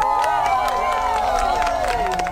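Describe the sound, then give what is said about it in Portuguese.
Crowd in Iceland cheering and clapping as darkness falls during a total solar eclipse: many voices shouting and whooping together in a continuous, lively roar. “Na Islândia, a escuridão foi recebida com aplausos.”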